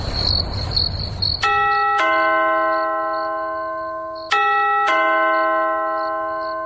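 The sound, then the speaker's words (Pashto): A doorbell rings at a house door at midnight: an electronic chime sounds twice in two-note ding-dong pairs, four clear ringing strikes in all. High, pulsing insect-like chirping is heard before the first chime. “د دروازې زنګ ووهل شو، ته وس وګوره چې څوک دي.”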